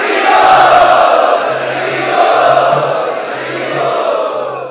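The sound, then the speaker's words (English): An audience loudly chants together to welcome special guests, a continuous swell of massed voices with a faint intermittent low hum beneath it. “So let us welcome all these special guests by loudly chanting.”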